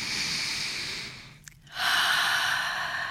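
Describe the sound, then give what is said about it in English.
A big deep breath: a long airy rush of air, a brief pause, then a louder, fuller breathy rush that carries on to the end. The breathing is heard alone, with no talk. “Take a big breath.”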